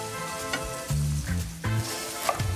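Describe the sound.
Onions sizzle as they are lightly browned in a frying pan while being stirred. A steady, moderately loud crackle runs throughout, with no talk.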